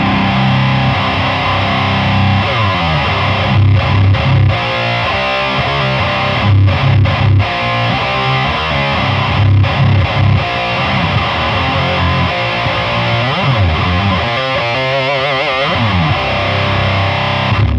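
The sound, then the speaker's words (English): Electric guitar played through a heavy fuzz distortion pedal. It gives a thick, saturated, buzzing tone that plays on without a break, with sustained chords and short gaps between phrases. “Now, decent heavy fuzz, it's not meant to be used like this, and actually the new version with the final art sounds better too, but this is all I had with me.”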